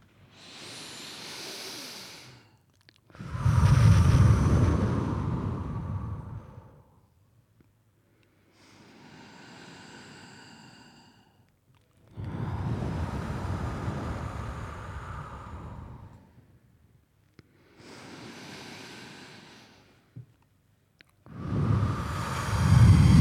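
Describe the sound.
Three deep, slow breaths. Each one is a quieter, airy inhale followed by a louder, longer hissing exhale, and the cycles repeat in an even rhythm with no talk.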